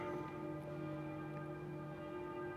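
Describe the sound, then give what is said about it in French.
An abbey church bell rings on E flat. It gives a faint, sustained tone with steady overtones that hum evenly through the short clip. “Mais ce n'est pas la paroissiale qui sonne, c'est l'abbatiale, le mi bémol.”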